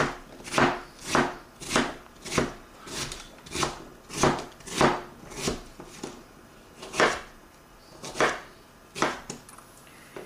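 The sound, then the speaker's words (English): Knife chopping a fresh flea-market cucumber with the peel left on, producing many soft, woody thuds in a steady, evenly spaced rhythm at a fairly quiet level. “But just because this cucumber I got fresh from the flea market, I think I am going to leave the peel on. Quickly chop this.”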